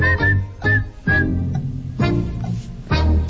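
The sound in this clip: A person whistles short, bright phrases in a few separate bursts, clear and fairly loud, with no talk over them.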